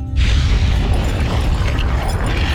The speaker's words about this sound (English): There's an unsettling sucking sound from outside, and the pod starts shaking violently.